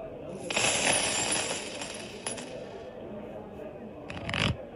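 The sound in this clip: Gold coins clink as they are set down as a wager at a tavern card game. A jingling metallic rattle runs for over a second, fades, then returns in a shorter burst near the end.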